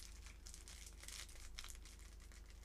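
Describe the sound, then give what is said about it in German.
Thin plastic foil wrapper crinkles and tears on a pack of Uno cards being opened, a faint, continuous rustling with small crackling bursts. “Hier ist so ein kleiner Fitzel von der Folie und da muss man es eigentlich aufmachen.”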